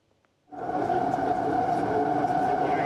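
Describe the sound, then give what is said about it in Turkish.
A metro train runs on a newly opened airport line in Istanbul. After a brief quiet moment, a steady, loud rumble and hum set in abruptly and hold constant. “Halkalı İstanbul Havalimanı metro hattının Arnavutköy Halkalı kesimi hizmete girdi.”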